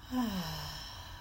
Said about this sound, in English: So we're going to take a deep breath in through our nose, and we're going to hold and exhale through our mouth, and we'll do that three times. So let's breathe in, hold, and release.